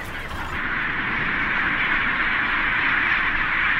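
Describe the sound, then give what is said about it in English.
Penguins calling across the world's largest penguin colony, a dense, unbroken chorus of braying cries that merges into a loud, steady din with no pauses. “This is the largest penguin colony in the world.”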